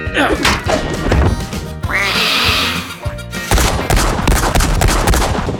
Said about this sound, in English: Hold still, so I can hit it.